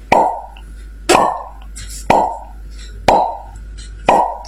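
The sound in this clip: Soda bottles being popped open at a shop: five sharp, hollow pops, evenly spaced about a second apart, each with a brief fading tail.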